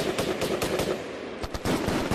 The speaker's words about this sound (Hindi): हवलदार दयाराम ने LMG को संभालते हुए दुश्मनों पर गोलियों की बौछार शुरू कर दी।